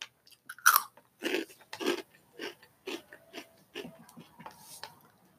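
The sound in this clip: Crunchy hot Cheetos snacks are chewed in many crisp, quiet bites, with sharp crunches first and then softer, uneven chewing that continues alone without talk.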